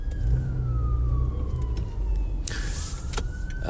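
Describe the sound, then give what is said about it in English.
Ambulance siren passing a car waiting at a four-way stop: a steady wailing tone that slowly drops in pitch over low engine rumble, with a brief burst of hiss near the end. “I'm sorry, there's an ambulance coming by. Let me wait for this guy to go by.”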